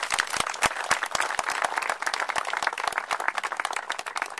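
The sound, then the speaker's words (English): Audience applause welcoming Governor Jay Nixon: many distinct hand claps build into a crisp, irregular patter that keeps going at a fairly steady level, with no talk over it. “if you would help me welcome Governor Jay Nixon, let's give him a hand.”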